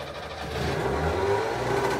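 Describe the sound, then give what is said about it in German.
A Trabant car engine runs in a private repair workshop in East Berlin, a steady mid-pitched buzzing drone with a low rumble that grows a little louder after the first half second and then holds. “Ein Geräusch aus der Anfangszeit. 1982 eröffnete Familie Gohlbeck im Ostberliner Zentrum eine private Trabantwerkstatt.”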